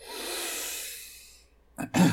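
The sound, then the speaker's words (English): A voice imitates choking and gasping for breath: a long, raspy, breathy exhale, then a short gap and two abrupt coughing bursts. “Choking to death on my excitement.”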